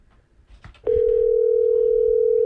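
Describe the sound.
A telephone tone sounds while someone places a call. It enters abruptly after a short stretch of faint background noise and holds one steady, unbroken pitch at a constant loud level to the end.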